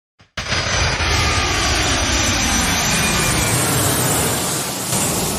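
A jet airplane taking off, used as a sound effect: after a brief soft click, a sudden, loud, broad roar of jet engines kicks in and holds steady to the end.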